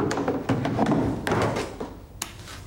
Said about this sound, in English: The young man looks in, then closes the back door.